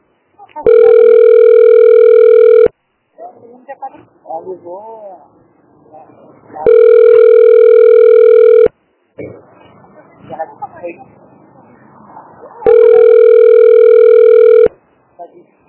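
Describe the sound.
Telephone ringing in three long, steady electronic tones of about two seconds each, evenly spaced, loud and clear, with quieter voices and background sounds in the pauses between rings.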